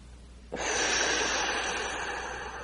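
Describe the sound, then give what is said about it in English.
One long, deep breath drawn during a guided relaxation exercise: an airy rush that begins abruptly and holds steady, easing off slightly toward the end. “Let's take some more deep breaths.”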